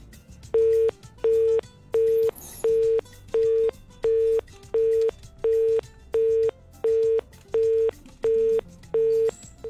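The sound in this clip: A telephone busy tone sounds after a call is disconnected: fourteen evenly spaced beeps at a steady mid pitch, each about half a second long, in a regular on-off rhythm with nothing else clearly heard.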